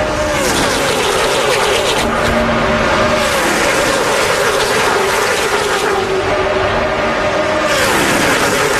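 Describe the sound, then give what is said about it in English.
Traffic on the Howard Franklin Bridge in Tampa: a loud, continuous roar of fast-moving cars, with engine drones swelling and fading as vehicles pass. “That is a live microphone right now on the Howard Franklin Bridge.”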